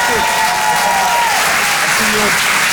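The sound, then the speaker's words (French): An audience applauds and cheers for a comedian at a comedy club, with dense, steady clapping throughout and a voice heard over it. “Faites du bruit pour Pierre Tévenou.”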